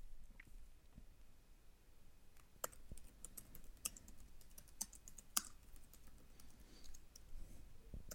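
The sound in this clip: Code being typed on a computer keyboard: many soft, irregular key clicks at a brisk pace, faint and heard alone.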